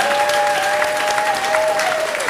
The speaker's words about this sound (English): Round of applause, Anishka.